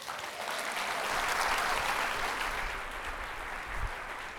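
Audience applause welcoming a professor to the stage at a 2023 NSWNMA conference: dense, steady clapping that holds at an even level for a few seconds, with no voices over it.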